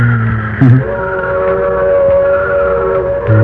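A freight train passes with a loud, sustained whistle-like tone held over a steady rolling rumble, with deeper blasts at the start and again at the end.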